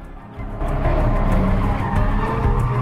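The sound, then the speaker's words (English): Engines and tyres of a night convoy of cars drifting round mountain bends, among them a Mazda RX-8; a low engine roar swells after a brief quieter start, then holds loud and steady. “A convoy of cars eases its way up the mountain road. Neela's at the wheel of her Mazda RX-8 with Sean sitting beside her. The whole posse drifts round one bend after another.”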